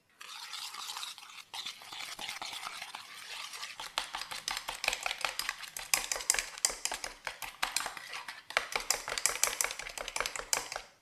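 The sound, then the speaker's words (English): Sugar and eggs being whisked together by hand, a fast, rhythmic run of many clicking, swishing strokes. The strokes start smoother and grow sharper and more distinct as the whisking continues, with a brief pause early on. “And I'm just gonna whisk the sugar and eggs together.”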